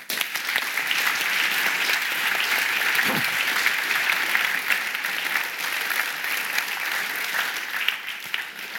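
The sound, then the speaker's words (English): Sustained audience applause welcomes the first speaker of an evening lecture, a dense, even wash of clapping that holds steady for about nine seconds with no talk over it. “So please put your hands together and join me in welcoming your first speaker for the evening, Professor Richard Byrne.”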